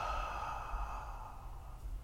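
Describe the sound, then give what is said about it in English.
A deep, steady exhale during a box breathing exercise: a long, soft, breathy rush of air lasting about two seconds, with no talking. “I'll guide us with this box breathing, exhaling together,”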